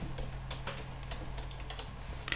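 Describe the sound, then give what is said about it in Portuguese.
Soft, quick clicks of a computer keyboard as a password is typed, many light keystrokes in a fairly even stream, faint against a low steady background hum. “Agora vou digitar aqui a minha senha.”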